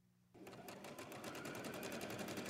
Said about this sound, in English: that's what brought me to their regular sewing class recently, where I met Rachel Bechtold, the Women's Empowerment Program Coordinator for the program, and a few of the women that they serve.